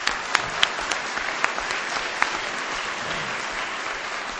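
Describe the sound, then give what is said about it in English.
Audience applause for the organizing committee at an Al-Anon meeting: a steady wash of clapping with a handful of sharper individual claps popping out, no voices over it. “How about let's hear it for the committee, huh?”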